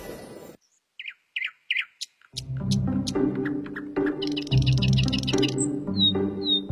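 A magpie gives a few short, sharp chirping calls in quick succession, then a steady musical backing with high tones enters and carries on to the end.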